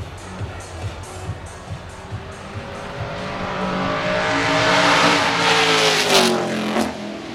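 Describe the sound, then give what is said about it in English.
Ferrari Lancia D50 racing car engine: a rough, pulsing low note that climbs in pitch and grows loud as it revs, then eases back near the end. “Ferrari Lancia D50.”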